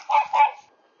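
A dog barks twice in quick succession while passing dog walkers, two short sharp yaps followed by silence.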